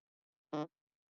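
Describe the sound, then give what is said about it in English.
A single short fart, a buzzy, tonal burst lasting only a fraction of a second, with silence before and after. “did you just fart?”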